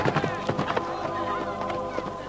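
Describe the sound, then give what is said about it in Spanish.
Horses whinny and their hooves clip-clop as children ride away on horseback from a village under attack. Many quick, uneven hoofbeats run throughout beneath high, wavering neighs. “Los niños se alejan a caballo.”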